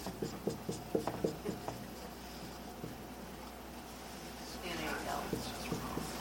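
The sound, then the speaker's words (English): A pen or pencil writes by hand on paper in a series of short scratchy strokes and soft rubs. The sound is faint, with light taps between strokes and a brief denser scribble near the end. “I'm thinking farther ahead than I'm writing.”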